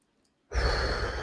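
A single long exhale as held breath is released during a calming breathing exercise for anxiety, starting abruptly after near silence and staying steady and breathy to the end.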